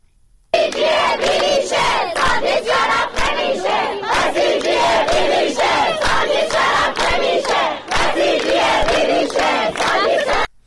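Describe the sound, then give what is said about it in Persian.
University students at a protest rally in Kermanshah chant slogans in unison, loud and rhythmic, nearly without pause, with one brief dip before the chant resumes. “دانشجویان دانشگاه صنعتی شیراز، دانشجویان دانشکده علوم انسانی دانشگاه یاسوج، دانشگاه هرمزگان و دانشجویان دانشگاه رازی کرمانشاه دست به تجمع‌های اعتراضی زدند. صدای دانشجویان دانشگاه رازی کرمانشاه.”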